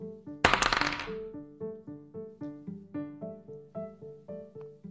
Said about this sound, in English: Please roll for success rate. That's please. An 18. You successfully cast lightning strike and now come roll on, to hit.